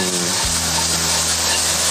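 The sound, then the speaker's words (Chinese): Bean sprouts stir-fried in a wok with ginger strips, garlic slices and onion in just a little leftover oil give a loud, steady, unbroken sizzling hiss with no talking. “这样炒一炒，要的是去它的水气”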